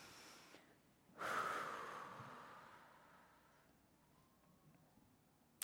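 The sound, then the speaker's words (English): A single deep cleansing breath starts abruptly with a breathy rush, then fades slowly over several seconds. The breath is fairly faint, with no talk around it. “So why don't we right now just take a cleansing breath together before we move to the next part?”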